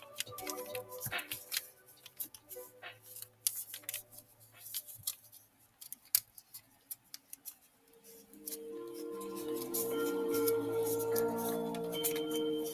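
Crisp crinkles and dry taps as a sheet of paper is folded in half, forming an irregular run of quiet clicks, followed in the last few seconds by a steadier, fuller sound.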